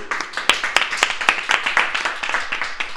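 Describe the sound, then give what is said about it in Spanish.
Group handclapping after a sing-along, many crisp claps falling in a quick, fairly regular rhythm, moderately loud and sustained throughout. “¡Un aplauso!”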